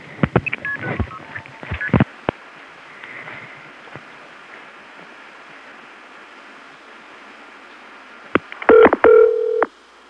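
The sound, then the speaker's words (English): Touch-tone telephone dialing of a non-working number: a quick series of bright beeping tones, then a long stretch of faint hiss, then another cluster of tones near the end. “I'm calling the non-working number, Ben is cutting in.”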